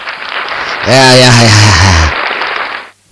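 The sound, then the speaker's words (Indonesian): Applause greets a sponsor: a steady wash of clapping with a loud voice calling out over it in the middle, then the clapping continues briefly and drops off. “Yeay, mari kita bagi tepukan kepada Nabila Huda.”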